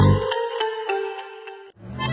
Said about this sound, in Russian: звонит звонок